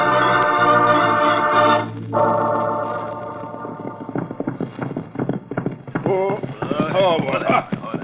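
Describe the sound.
Horses riding off, their hooves clip-clopping in a quick, uneven beat that builds through the second half, after a held tonal sound and with other sounds mixed over it.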